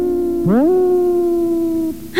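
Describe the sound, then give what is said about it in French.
A wolf howls in one long, loud, steady note that slides upward at the start, holds level, then drops away near the end. “Ça, c'est un loup.”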